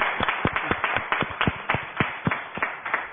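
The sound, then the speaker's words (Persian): Hands clapping in someone's honour: many quick, sharp claps in a somewhat uneven rhythm, fairly loud, with no talk. “دست به افتخارشون بزن.”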